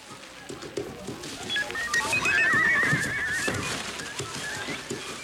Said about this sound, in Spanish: Para huir de aquella hoguera, Proteo se metamorfoseó en un magnífico caballo.